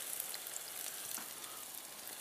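Onions and chanterelle mushrooms fry in a pan with a steady, even sizzle of fine crackling that holds at a constant level throughout, with no talk.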